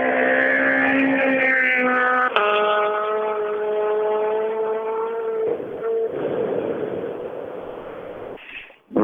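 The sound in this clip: A rally car races past at speed during a championship stage, its engine a loud, high-revving harmonic drone that jumps sharply partway through, then breaks into rougher noise and fades away near the end.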